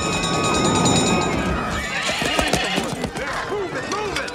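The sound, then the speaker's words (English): Whinnies from four horses pulling a fire engine to a burning museum, heard with hoof clip-clop. The shrill calls rise and fall in the second half over a dense, loud wash of other sound. “Now, four horses pull a fire engine to the burning museum.”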